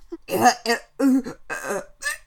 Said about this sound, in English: How does it sound, Your Majesty? All those gagging noises.